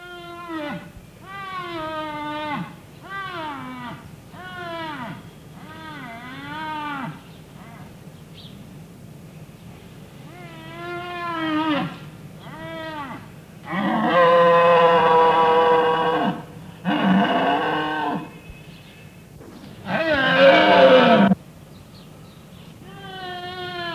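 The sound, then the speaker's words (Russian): Mournful bellowing of a reindeer stag in a children's fairy tale: a run of short wavering, tonal calls, then three longer, louder and harsher bellows near the end. “Олень дал рева.”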